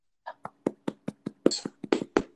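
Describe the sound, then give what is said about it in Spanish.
Muffled flamenco hand clapping, palma sorda, a quick, evenly spaced run of about a dozen soft, dull claps, each short and low-toned, heard alone with no talk. “Aplaude. ¿Qué? Palma sorda.”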